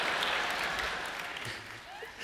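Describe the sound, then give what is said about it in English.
Brief clapping from an audience during a sermon, a soft wash of hands that thins out slightly toward the end. “Why is it only women clapping right now?”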